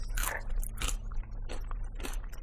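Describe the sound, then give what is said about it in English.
Crunchy chewing on crackers and a pretzel dipped in a zesty lemon dip, with a few sharp, crisp crunches spaced irregularly over steady, moist mouth noise. “What I appreciate about Zesty Lemon is that I can tell there's a difference in what I'm chewing.”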